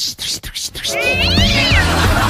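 A small female cat meows in one long, drawn-out, wavering cry that follows a brief stretch of scattered clicks and rustling.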